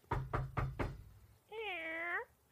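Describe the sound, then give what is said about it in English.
A cat meows once in a long, steady, tonal call, preceded by four sharp knocks in quick succession. “That's our cat.”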